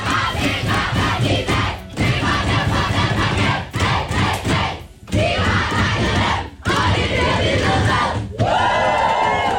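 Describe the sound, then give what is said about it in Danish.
Loud cheering, yelling and whooping from the Danish women's national football team celebrating a win over Serbia in their dressing room; many excited voices shout together almost without pause, with only brief dips. “Lyden fra omklædningsrummet hos de danske fodboldskvinder i går. Det danske fodboldlandshold for kvindefodbold vandt jo altså en flot sejr over Serbien”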